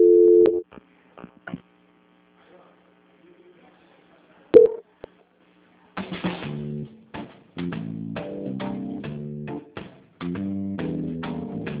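Electronic telephone tones during a call transfer. A short beep and a few faint clicks are followed by near silence, then three long runs of repeated, steady-pitched beeping tones.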